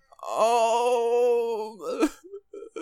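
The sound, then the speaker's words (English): A human voice imitates a groan with a long, sustained, steady moaning tone that holds for over a second. A few short, broken vocal sounds follow it. “be like, groan a little bit?”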